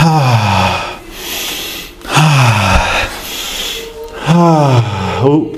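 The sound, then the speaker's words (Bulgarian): Deep breaths drawn in during a guided prayer, a few long, breathy inhalations with a rasping, partly voiced edge, each swelling loudly and then fading, heard alone. “Вдишай дълбоко три пъти.”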